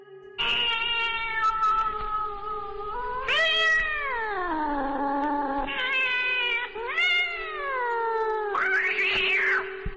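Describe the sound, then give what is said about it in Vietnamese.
Two cats fight at night, yowling in long, loud, wavering caterwauls that swoop up and down in pitch almost without pause for the whole stretch. “Tiếng hai con mèo đánh xé cắn nhau xé tan đi cái màn đêm tĩnh mịch.”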